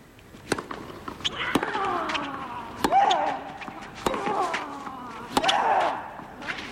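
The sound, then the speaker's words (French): Tennis ball strikes at a professional women's tennis match, about five sharp, crisp thwacks spaced roughly a second apart over a low background of court noise. “Ina Svitolina au service côté gauche du court.”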